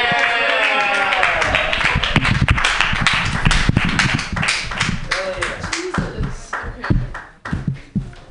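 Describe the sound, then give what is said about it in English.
Audience clapping and cheering at a live comedy show: dense, sharp claps mixed with shouting voices. The burst holds loud at first, then thins into scattered claps and calls toward the end. “Make some noise for Serenity! Yeah!”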